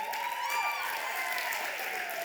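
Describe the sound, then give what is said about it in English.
Audience applause at a church gathering welcomes three young men onto the platform. Dense, steady clapping holds loud for the whole span. “Hey, can we put our hands together and welcome three strapping young men to the platform right now?”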